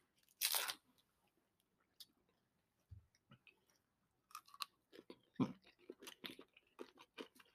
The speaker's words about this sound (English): I can taste some Lay's in there. I feel the crunchiness